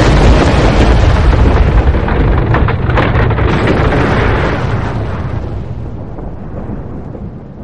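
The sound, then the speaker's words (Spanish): A volcanic eruption explosion effect portraying Vesuvius erupting at Pompeii: a loud, dense, thunderous roar that rumbles continuously for several seconds, then slowly thins and fades toward the end, with no voices. “Estoy en Pompeya y acaba de explotar el volcán.”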